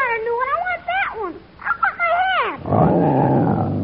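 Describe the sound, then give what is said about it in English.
A lion at its cage growling while chewing on a hat: a run of high, wavering yowls that rise and fall in pitch, then a loud, rough low growl that holds to the end. “The lion is chewing on your hat.”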